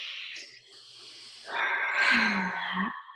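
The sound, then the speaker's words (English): A slow, comfortable breath taken during a calming guided exercise: a soft airy inhale, then a longer, louder exhale that fades out. “Okay, so take a comfortable breath.”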